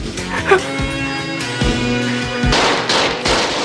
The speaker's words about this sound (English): Mark shoots over the top of the bar. Rocker fires as Baxter cowers.